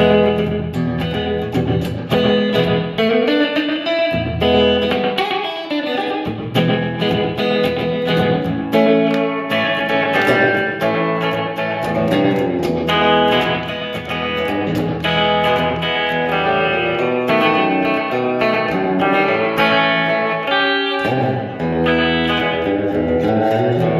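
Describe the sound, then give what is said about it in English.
Electric guitar played through tremolo and reverb effects, a dense, continuous stream of ringing chords and notes that fills the whole stretch with only a few brief dips. “Yeah, tremolo reverb. So two of my favorite effects put together.”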